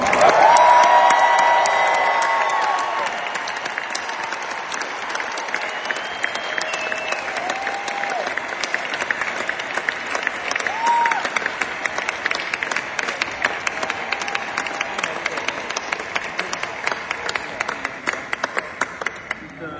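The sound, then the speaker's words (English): Concert audience applauding, a dense, continuous wash of many hands clapping, loudest at the start and then settling into steady sustained applause for the full length. “Let's hear it for John.”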